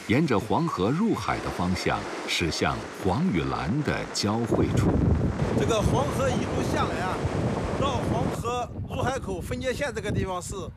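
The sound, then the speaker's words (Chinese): A speedboat carries tourists across the water toward the Yellow River mouth where river meets sea, with wind and rushing water noise running steadily beneath continuous talking. “驾驶着他的快艇，载着南来北往的游客”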